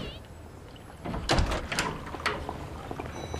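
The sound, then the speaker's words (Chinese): A door being shut in a home as guests settle in, heard as one short thud and rattle near the middle, with voices chatting in the background. “门关上透风啊。”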